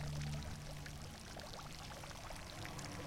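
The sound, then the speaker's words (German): Water pours steadily in a fountain, a faint continuous splashing and trickling hiss that holds an even level throughout, with no voices. “Vor dem Brunnen bleibe ich stehen.”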